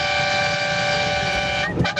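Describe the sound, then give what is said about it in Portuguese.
Car horns honking in a steady, blaring chord of sustained tones that holds through the whole clip, with a brief noisy burst near the end. “Ó, ó, isso é buzinada, meu filho. Os caras do Brasil inteiro buzinando na Band”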